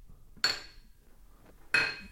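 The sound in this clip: Beer glasses clinking in a toast: two separate bright, sharp clinks with a short ringing decay, spaced over a second apart against a quiet background.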